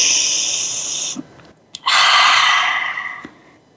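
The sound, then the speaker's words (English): A group takes a collective deep breath together: a long, airy inhale, a brief silent pause, then a fuller, steady exhale that gradually fades. “Let's take a collective breath together”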